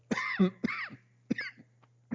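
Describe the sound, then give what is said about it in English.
Coughing after swallowing wrong: several harsh, throaty coughs in uneven bursts with short pauses between them, over a steady low hum. “Excuse me. Hairball. You know, I just swallow wrong sometimes.”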